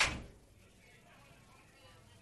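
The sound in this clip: A door is closed with a single dull thud at the very start, which quickly fades into near silence.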